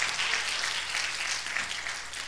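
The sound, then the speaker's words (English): Congregation clapping hands during a church worship service, a dense, steady wash of applause that holds at an even level for the whole stretch, with no voices standing out. “Now clap those hands and give him the glory and the praise and the honor.”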